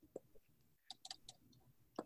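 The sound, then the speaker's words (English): Faint, sharp computer mouse clicks while trying to start a slideshow that fails to open: a few quick, dry ticks in an uneven cluster, then one more click after a short pause. “I'm clicking on slideshow and it's not doing it.”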